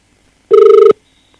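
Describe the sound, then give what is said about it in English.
A telephone rings once over speakerphone while a work voicemail line is being called. The ring is a single short, buzzy tone with a fast pulsing flutter. It is fairly loud and stops abruptly. “All right, so let me just call my work voicemail. Call audio mail. Calling audio mail.”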